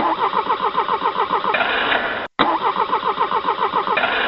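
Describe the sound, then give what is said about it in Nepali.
A cheap, poorly made generator engine is cranked but fails to start, giving a steady rhythmic churning of starter pulses that runs nearly throughout, broken once by a brief silent gap. “Sir, यो generator नै start भइरहेको छैन, हजुरलाई त पहिले भनेको थिएँ नि यस्तो कबाड कम्पनीको जेनेरेटर नल्याउनुहोस् भनेर।”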